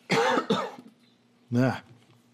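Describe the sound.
Coughing and throat clearing from someone with oatmeal stuck in the throat, a few harsh, rough bursts: two close together, then a pause and one more.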